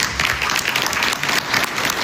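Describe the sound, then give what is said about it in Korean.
Applause from dinner guests at a peace-agreement signing during a dinner at the palace of Versailles, France: a dense, even wash of many hands clapping that holds a steady level throughout. “마크롱 프랑스 대통령 등 참석자들이 흐뭇한 표정으로 박수를 보냅니다.”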